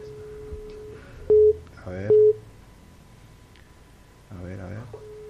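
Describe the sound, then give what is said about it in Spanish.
A telephone line gives a busy signal while a call is placed: a steady mid-pitched tone, then several short beeps separated by gaps, with people talking at intervals over the line. “Yo le voy a llamar acá. Llamar al ministro. Producción, llámenle al ministro. Ustedes cambiamos de contacto. Ahí está llamando a la doctora Andrea Mayol.”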